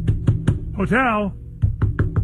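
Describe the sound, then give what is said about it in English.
Knocking on a hotel room door imitated by striking the back of a hand: a few hard raps, then a drawn-out vocal sound, then several more raps in quick succession. “And he right. goes to the door, and he, like, slams on the door, goes,”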